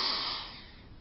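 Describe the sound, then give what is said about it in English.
A long nasal sniff as a person imitates smelling a letter from a loved one: a single breathy inhale of about a second that starts strong and fades gradually. “I would hold it to my face, and I would sniff. I would go,”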